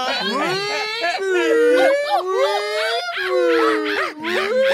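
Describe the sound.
Monkey calls in a survival crafting video game: many overlapping hooting, wavering cries rise and fall in pitch in a steady, loud chorus.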